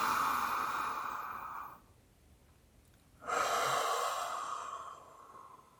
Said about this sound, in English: And exhale out again the question into the universe. And on one more, we're going to inhale in.